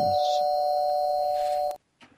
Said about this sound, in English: That's the doorbell, which means the pizza from the dead's here, so we have to wrap it up.